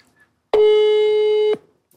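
Ringback tone of an outgoing telephone call: a single steady, mid-pitched electronic buzz lasting about one second, then silence, heard alone with no talk.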